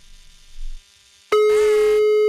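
A steady electronic telephone tone sounds while a call is being dialed. It begins abruptly after a faint, low murmur and holds level and loud to the end.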